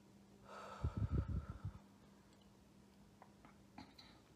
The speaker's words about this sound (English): And let's take a deep breath. And exhale.